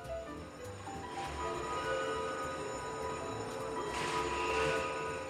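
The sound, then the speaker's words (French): Steady ambient noise inside a TGV high-speed train waiting before departure, a continuous low rumble and broad hiss with no distinct events and no talk. “Bonjour, vous avez pris place à bord du TGV 7229 à destination de Calais-Lille. Nous vous rappelons que les titres de transport doivent être compostés avant l'accès au train. Notre TGV va partir dans quelques instants.”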